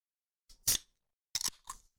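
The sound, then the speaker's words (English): Opening a can of Waterloo pineapple sparkling water: two short crackling bursts, each with a brief fizzy hiss trailing off, separated by a short gap of quiet. “before I start, though, I'm going to crack open a Waterloo sparkling water in pineapple.”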